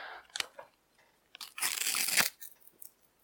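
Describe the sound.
Tearing open sticker packets: a few short papery rips, then a longer loud stretch of crinkly tearing, followed by a few softer crackles and no voices.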